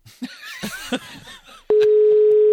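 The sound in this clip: A telephone dial tone sounds while someone is being called: a steady, unbroken mid-pitched tone starts abruptly after a stretch of speech and holds loud and constant to the end.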